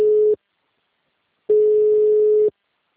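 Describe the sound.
Busy tone after a dropped phone call: a steady mid-pitched electronic tone, first as a brief burst that cuts off, then after a silent gap as a single pulse lasting about a second, loud and alone.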